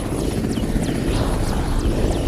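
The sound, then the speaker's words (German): A military helicopter flying soldiers into a camp in Afghanistan gives a loud, steady rotor thrum and engine whine, continuous from start to end with no voices. “Die deutschen und internationalen Soldaten fliegen nur noch mit Hubschraubern in das afghanische Camp.”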